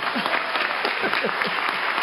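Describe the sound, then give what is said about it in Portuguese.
Applause from the audience at a formal ceremony, with dense, continuous clapping at an even level throughout and a few voices mixed in. “Dá uma salva de palmas para ele aí.”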